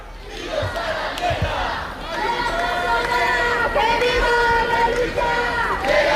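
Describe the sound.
A loud protest crowd chants in unison in front of the Spanish parliament building, the Congress of Deputies, on Carrera de San Jerónimo. The voices are sustained and rhythmic over a dense crowd murmur.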